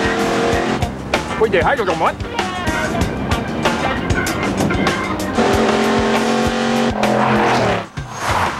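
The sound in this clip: A car engine roars as the car accelerates down an alley toward another car, tires squealing, loud and sustained, with voices talking over it.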